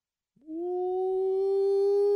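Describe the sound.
A dog howls in one long sustained note that glides up slightly at the start, then holds a steady, clear, tonal pitch with strong overtones until the end. The howl grows gradually louder and is heard alone.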